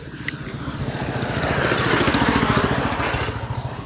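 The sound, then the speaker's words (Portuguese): A slow, noisy motorcycle passes by, its rough engine chugging in a steady low pulse that grows louder toward the middle and then eases off a little. “Moto. Lenta. Barulhenta.”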